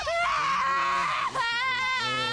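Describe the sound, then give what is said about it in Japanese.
Loud, high-pitched crying from a person being soothed, heard as two sustained, wavering wails separated by a brief catch of breath. “泣かないで、泣かないで、泣かないで、よしよし。”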